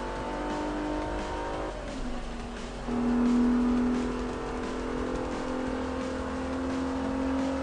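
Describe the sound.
A race car engine in a racing video game gives a steady droning note that dips and then swells louder partway through before settling into a continuous hum.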